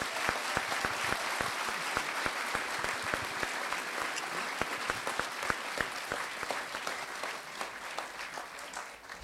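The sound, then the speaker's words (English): Warm audience applause greets Salman Rushdie at a Harrisburg bookstore event: a long, even roar of many hands clapping at once, sustained at a steady level throughout with sharp individual claps popping out of the dense texture. “We are so very honored to welcome the return of Sir Salman Rushdie to Harrisburg. So at this time, please join me in giving him a warm Harrisburg welcome.”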